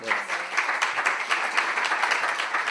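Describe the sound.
A group applauds for a birthday, with dense, steady clapping that continues evenly for the whole stretch.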